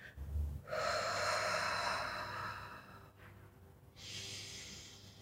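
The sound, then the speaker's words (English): A slow, deep breath: a long airy draw of air lasting over two seconds, then after a brief pause a second, shorter breath, with no talking. “Let's go ahead and take a deep breath.”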